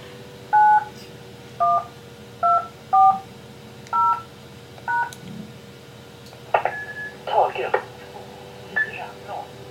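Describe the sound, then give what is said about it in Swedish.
Six DTMF tones dialled to connect an amateur radio repeater over the internet: short, evenly loud beeps in a quick sequence, followed by brief bleeps and a few seconds of talk. “Om jag då vill göra ett allmänt anrop, men inte bara lokalt här då, så kan jag koppla mig dit då med hjälp av internet här. Då slår jag en DTMF-kod här.”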